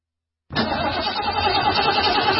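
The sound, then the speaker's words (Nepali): A car engine with a battery problem bursts into sound after a moment of silence, a loud, dense, rough churning rumble that carries on steadily without a break. “होइन, के भयो? किन बन्द भएको गाडी? Battery फेरेको 10 दिन पनि भएको छैन।”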